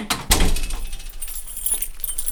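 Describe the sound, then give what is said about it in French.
A key grinds and turns in a stiff door lock, with a sharp clack near the start followed by jangling metal and small clicks and rattles. “Elle est dure ta serrure là, non? Hein? Elle est dure ta serrure.”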